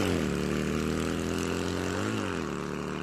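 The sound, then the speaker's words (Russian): Engine roar from a BMW motorcycle with a sidecar speeding off: a loud, steady, harmonic drone with no talk, its pitch dipping briefly near the end before holding steady. “Мотоцикл, взревев, понесся навстречу ужасным приключениям.”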